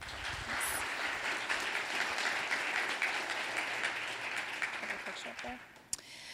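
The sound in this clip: Audience applause welcomes a married couple invited up to speak. A dense, even wash of clapping holds steady for about six seconds, then thins out, with one sharp clap standing out near the end.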